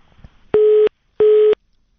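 A telephone busy tone after a dropped call: two identical steady mid-pitched beeps, evenly spaced with a silent gap between them, loud and clear with no talk.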